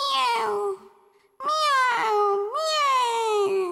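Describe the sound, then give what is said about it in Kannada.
A voice imitates kittens meowing, standing in for two kittens inside a grandmother's house: three clear, tonal mews in a row, the first falling in pitch, then a pause, and the last two longer and run together, fairly loud and alone. “ಅಜ್ಜಿ ಮನೆಯೊಳಗೆ ಎರಡು ಬೆಕ್ಕಿನ ಮರಿ ಹಿಂಗೆ ಹೇಳುತ್ತಿತ್ತು.”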